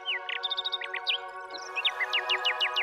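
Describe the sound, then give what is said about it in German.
A nightingale sings bright, rapid chirps and repeated trilled whistles in quick phrases, fairly soft, over a steady sustained musical drone. “Die Nachtigall, die dies alles mit ansah, sang jetzt noch schöner, noch klarer, noch trillernder.”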